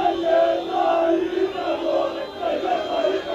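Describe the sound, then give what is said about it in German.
A large crowd of Erdogan supporters chants in unison at his welcome in Istanbul around Atatürk Airport. The loud, rhythmic shouted phrases repeat over a constant roar of voices. “Wir sind alle Tayyip-Soldaten, rufen seine Anhänger.”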